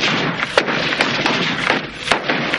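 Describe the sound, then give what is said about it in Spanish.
Sharp gunshots fired at a target during weapons practice in a military war film, a few distinct cracks standing out over a dense, steady bed of background noise. “Highway coge el arma y dispara tres veces dando en el blanco.”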